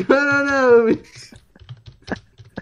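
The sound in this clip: Light, irregular clicks of typing on a computer keyboard, heard faintly after a long, sustained voice at the start, with a few sharper keystrokes near the end.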